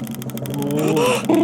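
A prize wheel being spun, giving rapid, even ticking that clicks steadily for about a second under a louder tonal sound that swells toward the end.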